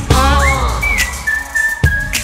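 Whistling in a Korean pop song: a bright melodic line slides quickly upward into high, sustained notes. A few sharp percussive hits break in near the end.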